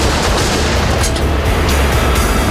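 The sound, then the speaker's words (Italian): Gunshot sound effects from a standoff in which several men fire at one another, heard as a loud, dense barrage of harsh noise with no clear gaps between shots. “In pochi istanti Joe spara a Orange, White spara a Joe, Eddie spara a White e White spara di rimando a Eddie.”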